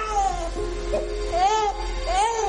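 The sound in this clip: A baby cries in a few wavering wails that rise and fall in pitch, with short pauses between them, over a steady low hum.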